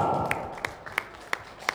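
Audience hand clapping at an evening celebration: five sharp, evenly spaced claps land in a steady rhythm over a low background murmur.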